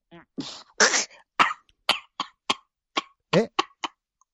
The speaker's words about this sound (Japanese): むせてむせて、あ、咳してんの